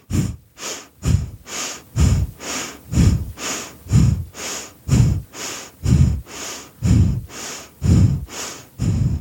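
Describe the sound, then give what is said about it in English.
Deep, deliberate breathing, with inhales and exhales alternating in a steady rhythm of roughly one breath per second. Each breath is a loud, rushing, airy sound, alone and without talk. “inhale, exhale, inhale,”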